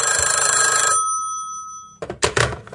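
A telephone bell rings for an incoming call, giving one loud, bright, metallic ring that fades out, followed after a short pause by a brief burst of rough, uneven noise.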